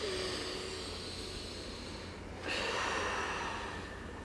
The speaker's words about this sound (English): And begin to breathe deep, nice big deep belly breaths.